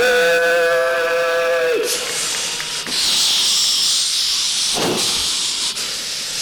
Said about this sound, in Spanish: Pero señoras y señores, vamos a viajar en tren.